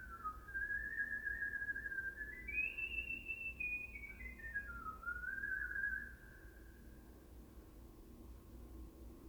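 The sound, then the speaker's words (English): A person whistles a wavering, sliding tune: a single clear melodic line carried steadily for about six seconds before it stops, leaving only a faint steady background hiss. “Whistles! Some really fucking good whistling.”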